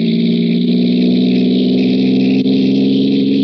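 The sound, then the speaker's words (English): A car engine pulls away on a lonely road through the Alleghenies, giving a loud, steady, low droning hum that holds constant throughout. “He hallooed at me this time. Hello! Hello! Stepped on the gas like a shot.”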